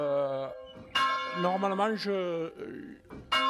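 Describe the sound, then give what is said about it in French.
A church bell rings in a few bright, clanging strokes. People talk over and between the strokes. “normalement je compte les coups de cloche. Enfin, je fais 100 battements à chaque appel.”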